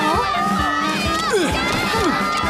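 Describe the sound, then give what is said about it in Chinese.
Running footsteps of an antelope and a young cheetah dashing past behind a cartoon character, quick rhythmic thumps under lively children's voices and shouting. “那你说现在跑过去的是谁？ 是羚羊菲菲，还有小猎豹小正午。”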